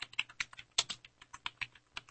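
Typing on a computer keyboard, with quick, irregular key clicks in a steady stream, faint and alone.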